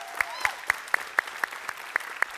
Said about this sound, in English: So if you guys here in person would you put your hands together and welcome in our online family?